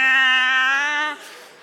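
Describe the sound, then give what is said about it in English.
A human voice imitates a hungry cat's meow as one long, loud, steady wail lasting about a second, then breaks off into a short breathy tail. “This cat, when he gets hungry, he has the most incredible meow.”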